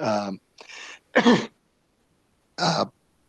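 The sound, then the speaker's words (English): A person coughs and clears the throat in four short, harsh bursts separated by brief pauses. Silence follows the last burst. “Was that a COVID cough? Hopefully not.”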